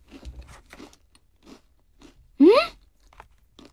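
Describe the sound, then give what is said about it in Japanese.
Biting into a seed-topped snack: a single loud, crisp crunch stands out sharply against quiet surroundings. “これ種だよね、 種ですね、はい、 なんか種に何かが乗ってるのかな、いただきます。”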